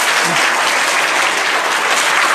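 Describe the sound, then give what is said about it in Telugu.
An audience claps for mothers with thick, loud, sustained applause. The clapping stays steady and unbroken throughout. “So ఎవరికి చప్పట్లు కొట్టాలి ఇప్పుడు? చప్పట్లు కొట్టండి.”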